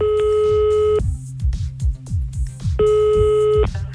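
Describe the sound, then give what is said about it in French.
Telephone busy tone after a call is cut off, a steady electronic tone in two long stretches separated by a busier gap of other sounds. “Je m'excuse, on a été coupé.”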